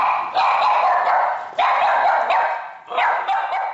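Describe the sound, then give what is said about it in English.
Two dogs barking, the first in play and the second angrily at a stranger: loud, dense, fairly high barks in a few back-to-back bursts, with no voices. “the first dog, Kira, was playing while the second, Lassie, was angrily barking at a stranger”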